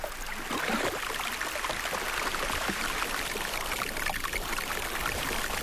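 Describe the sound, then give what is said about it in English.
Arctic ice-melt water trickles and streams in a steady, continuous wash of gentle flowing sound with no distinct breaks. “Here I could hear the ceaseless popping of underwater icebergs, the minute trickles of ice melt, the flow of the Arctic wind, the humming of our own transport, and of course the enormous crashing of the glaciers.”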